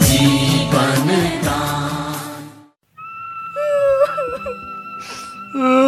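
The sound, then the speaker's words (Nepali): A young boy cries and whimpers in uneven, wailing bursts of sobbing. A brief silent break falls midway, then the crying picks up again, strained and high. “किन रुन्छस् बाबु? नरौ नरौ बाबु।”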